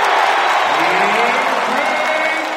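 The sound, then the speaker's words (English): A sold-out arena crowd at a basketball game in Charlotte roars and applauds after the home team's first points, a loud, sustained mass of cheering and clapping that eases slightly toward the end. “the sold-out crowd went wild.”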